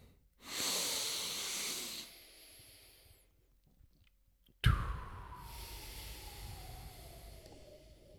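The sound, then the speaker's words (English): A big, deep breath: two long, airy, hissing breaths separated by a quiet pause, the second beginning abruptly and trailing off gradually. “All right, let's take a big, deep breath.”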